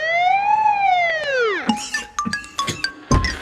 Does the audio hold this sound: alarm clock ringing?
no

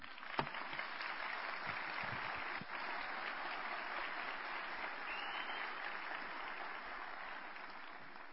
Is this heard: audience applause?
yes

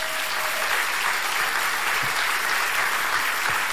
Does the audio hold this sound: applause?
yes

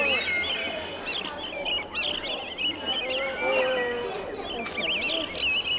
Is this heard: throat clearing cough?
no

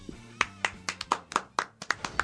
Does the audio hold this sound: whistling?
no

